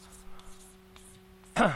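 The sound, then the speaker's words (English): Faint scratching of writing on a board during a mathematics lecture: a few soft strokes over a steady low hum, followed by a voice starting to speak. “Let me just write it down.”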